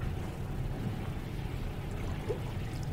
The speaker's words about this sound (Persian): میخوری شربت؟ بریز ببینم